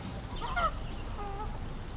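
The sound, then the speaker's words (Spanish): Geese honking in a park in the morning: two short, nasal calls, fairly faint above a steady background hiss. “Los gansos, mucho ganso por la mañana.”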